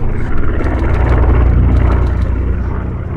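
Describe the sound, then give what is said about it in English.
A World War II B-25 bomber roars overhead as it circles a gravesite during a funeral ceremony. The propeller engines give a loud, sustained low rumble with a broad roar that holds steady throughout, with no voices. “a B-25 bomber like the one Thatcher flew in during World War II circled the gravesite three times before climbing up and away.”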